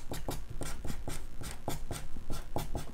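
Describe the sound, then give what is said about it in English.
Many quick, scratchy strokes of a pen or marker drawing a feedback loop diagram, coming in a steady, fairly even rhythm with no talking. “So let me draw this out for you.”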